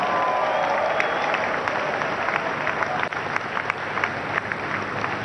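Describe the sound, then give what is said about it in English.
Church audience applauding at the Synagogue Church of All Nations, a steady dense patter of many hands clapping with sharp individual claps, crowd noise underneath, continuous throughout. “Come on, put your hands together for him.”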